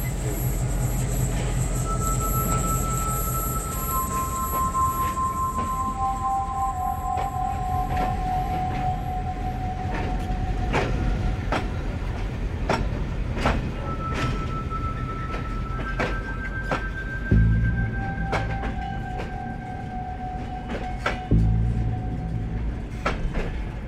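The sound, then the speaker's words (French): A train arrives at the high-altitude international station of Canfranc, coming from Zaragoza. Long sustained squealing tones sit over a steady rumbling roll, with scattered sharp rail clicks and a couple of heavier thumps near the end. “Le prochain train arrive à 12h30 et je suppose en provenance de Saragosse.”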